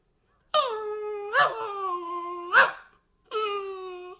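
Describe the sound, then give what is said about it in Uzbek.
A puppy whines in high, tonal whimpers: a few drawn-out cries with sharp yelping accents, separated by short silences, moderately loud and alone. “Bir oz yurgach, u obtobda isinib yotgan bir kuchukni ko'rib qopdi.”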